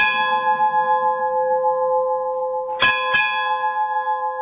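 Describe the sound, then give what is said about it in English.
A bell is rung, with two sharp strikes near the end ringing over a steady, sustained chiming tone that lasts the whole clip. “ring them Caroline Bell”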